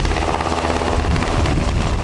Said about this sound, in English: Flying aboard a Black Hawk helicopter amid intense security